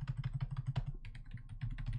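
Typing on a computer keyboard to enter a search word: a quick, fairly regular run of soft clicks and taps, faint and steady throughout.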